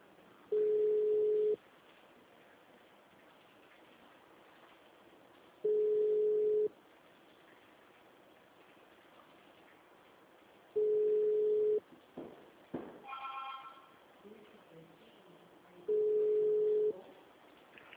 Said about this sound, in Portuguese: Tô ligando já.